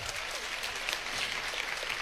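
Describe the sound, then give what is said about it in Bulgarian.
Audience applause at a music awards ceremony, with dense, steady clapping running evenly throughout at a fairly faint level. “Аплодисменти още веднъж!”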